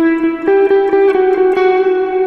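An instrument played through an effects unit with its filter switched off and a light drive engaged gives a bright, sustained, slightly distorted note. A quick run of picked attacks sits over it, with reverb trailing each one.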